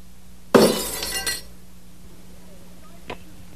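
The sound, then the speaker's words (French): A glass bottle is shot and shatters in a sudden loud crash of breaking glass, with bright tinkling fragments for about a second before fading to quiet. One faint short click follows later. “Commence par tirer sur cette bouteille et hop!”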